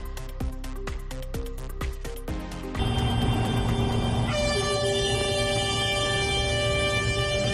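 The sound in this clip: Tractor horns honk at a farmers' protest in La Rioja, Spain: a fast series of short, sharp toots gives way to long, loud, sustained blaring tones, and more horns join in to form a dense, overlapping chord.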